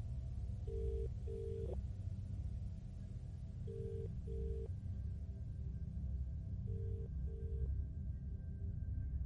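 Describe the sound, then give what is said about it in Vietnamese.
A man's outgoing call rings on the line with three faint double beeps. Each pair of short, steady tones recurs about every three seconds over a constant low rumbling hiss. “Ông Kỳ tiếp tục gọi thêm một cuộc nữa.”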